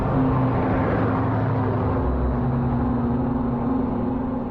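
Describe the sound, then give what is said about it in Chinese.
Car engine running steadily on a road during wartime travel out of Beiping, a low, even rumble with a faint constant hum above it. The drone stays level for the whole stretch, with no voices. “你就开车直接把林麦可先生送出北平，去平西交通站。”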